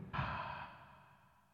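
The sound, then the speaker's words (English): A single deep breath let out as a long, soft sigh, starting abruptly and fading gradually over about a second and a half. “So deep breath.”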